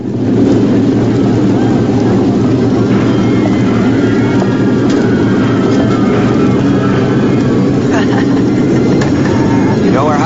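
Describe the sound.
Motorbike engines roar as riders set off, a loud, steady, low rumble that holds without break for the whole stretch.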